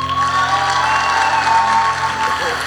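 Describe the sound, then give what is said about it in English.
An audience applauds and cheers to welcome a pastor as the first guest of the month at a church event, a continuous, fairly loud wash of clapping. “And for our first guest for the month of May, we give a round, warm welcome to Pastor Rosalinda Rivera.”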